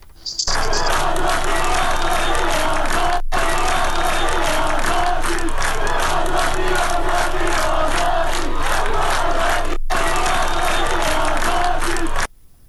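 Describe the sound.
Crowd noise from protests in Isfahan, Iran: a dense, loud mass of shouting and chanting voices runs nearly unbroken throughout. Two abrupt momentary cuts interrupt it before it stops suddenly at the end.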